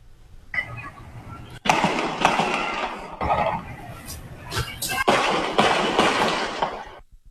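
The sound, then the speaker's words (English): Gunshots from a multiple-victim shooting in Hawthorne around 2 a.m., captured in a phone app video. A few sharp, loud bangs cut through a noisy background, each followed by a rumbling tail. “you heard the sound. Can you imagine hearing that outside your window? That's a Citizen app video. You can just hear exactly how many shots were fired.”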